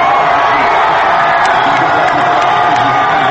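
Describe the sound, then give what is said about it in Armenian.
Thousands of people gathered outside the Socialist Party office in central Paris cheer the first-round election results, a loud, continuous wall of shouts and whoops with no break. “Ուրախության ճիչերով եւ Ֆրանսուան նախագահ վանկարկումներով դիմավորեցին ընտրությունների առաջին փուլի նախնական տվյալները Փարիզի կենտրոնում Ֆրանսիայի սոցիալիստական կուսակցության գրասենյակի մոտ հավաքված հազարավոր մարդիկ”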